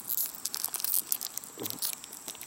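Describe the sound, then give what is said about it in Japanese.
Crinkly plastic rustling as someone struggles to tear open a snack bag, with many short, irregular crackles and tugs running throughout at moderate loudness. “くそ開かない袋が開けらんない”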